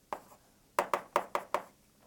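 Chalk taps faintly on a board during a lecture: six sharp taps, one alone, then five in quick succession after a pause.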